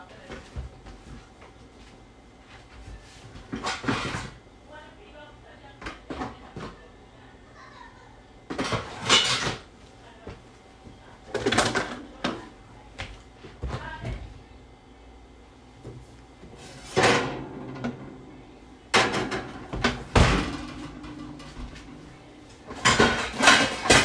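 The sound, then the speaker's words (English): Metal pots and dishes clatter as a cooking pot is taken out, a run of many sharp bursts of clanking and knocking separated by quieter stretches. “First things first, you want to get your pot.”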